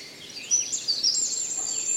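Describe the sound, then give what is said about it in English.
Bird chirps in a forest glade in late summer or early autumn: many quick, thin, high chirps and tweets, fairly faint, overlapping across the whole stretch over a soft, steady background. “The birdies chirping all around us.”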